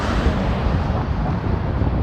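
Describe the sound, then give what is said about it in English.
Wind buffets the microphone on a chilly morning walk, a steady loud rumble and hiss that runs through the whole clip. “And there's a wind.”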